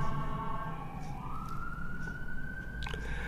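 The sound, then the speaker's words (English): Emergency vehicle siren going past: a sustained wailing tone that shifts upward in pitch partway through and then holds, moderately loud over a constant broad hiss. “I'll just wait for the emergency vehicle to go past.”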